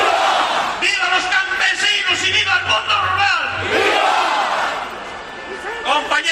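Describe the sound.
Farmers and ranchers from Cantabria protest in Madrid, a large crowd shouting and chanting in loud, overlapping bursts of voices that ease slightly toward the end before swelling again.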